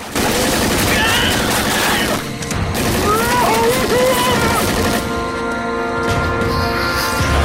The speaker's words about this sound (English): The soldier struggles to draw his weapon as bullets riddle his body.